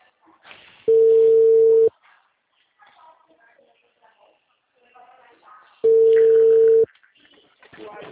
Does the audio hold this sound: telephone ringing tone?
yes

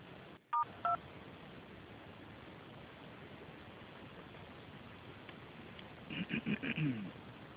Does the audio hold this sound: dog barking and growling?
no

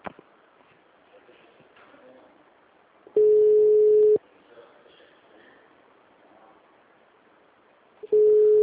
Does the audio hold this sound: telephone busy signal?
yes

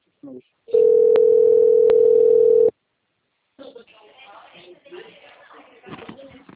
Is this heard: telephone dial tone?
yes

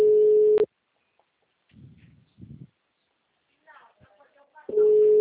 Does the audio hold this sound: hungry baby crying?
no

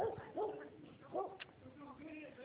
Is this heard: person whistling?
no

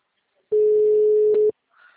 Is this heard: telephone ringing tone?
yes

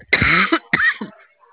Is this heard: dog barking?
no

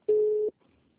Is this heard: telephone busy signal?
yes

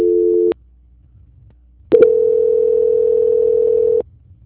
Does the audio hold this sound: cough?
no

